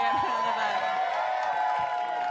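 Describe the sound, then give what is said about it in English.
Audience applause and cheering from a crowd at a live comedy show, a dense, steady wash of clapping with whoops running loud and unbroken throughout. “See, women get applause for that.”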